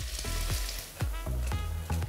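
Leek sweats in butter in a hot pan for a pike-perch dish, giving a steady, loud sizzle broken by a few rhythmic scraping stir strokes.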